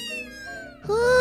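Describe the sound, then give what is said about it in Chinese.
Cats meowing in a yard: a drawn-out, tonal meow with a slowly falling pitch, followed by a louder, rising cry that begins near the end. “你看，小猫咪跳进院子了。”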